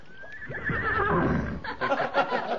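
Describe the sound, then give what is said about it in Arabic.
A horse neighs in one loud, drawn-out whinny that falls in pitch and fades, with softer rustling and knocking sounds afterward. “خليهم يحضروا الحصان بتاعي اوام.”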